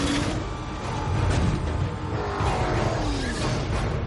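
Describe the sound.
A car accelerates up a ramp into the cargo hold of a plane on the tarmac, a sustained engine roar that stays loud and dense throughout.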